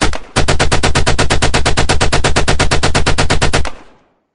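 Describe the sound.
Rapid automatic gunfire aimed at the speakers: one unbroken burst of many evenly spaced, loud shots lasting over three seconds, then stopping abruptly.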